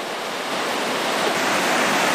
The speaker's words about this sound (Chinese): 小桥残破，河水湍急